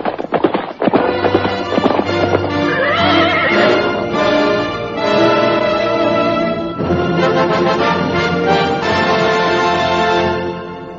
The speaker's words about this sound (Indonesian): dari jauh terdengar dua ekor kuda berderap semakin lama semakin dekat.